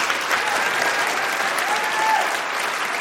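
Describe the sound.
Audience applause welcoming a debater onto the stage at a live public debate on dating apps and romance, a dense, steady clapping that holds at an even, fairly loud level throughout.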